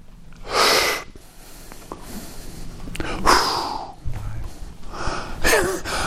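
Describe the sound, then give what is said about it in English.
A group of people takes an audible breath together, with a few breathy, rushing inhalations and exhalations swelling and fading over several seconds and soft noise in between. “You didn't deserve that breath.”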